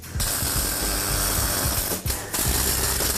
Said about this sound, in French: Ensuite, on soude le tuyau à la collerette.